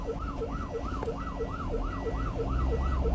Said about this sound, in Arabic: إسعاف إسعاف إسعاف، افتحوا الطريق،